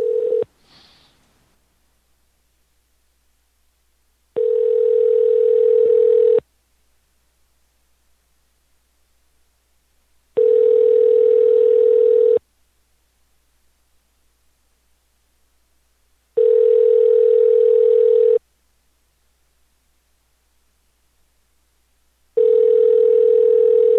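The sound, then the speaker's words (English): A telephone ringing tone while a number is being called: a short click, then four identical steady hums, each about two seconds long and separated by longer silences, with the last hum cut off. “Calling another number here.”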